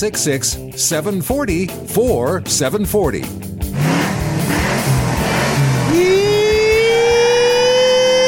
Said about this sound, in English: aside from the squealing tires, which we will still have down the road, we won't have an internal combustion engine to make those crazy noises.